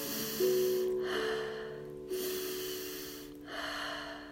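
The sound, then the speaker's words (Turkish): Slow, deep meditation breathing, drawn in long through the nose and released easily through the mouth. The breath rushes are faint and airy, over soft, steady background tones. “Burnumdan uzun ve derin çekiyorum nefesimi. Ağzımdan rahatça bırakıyorum.”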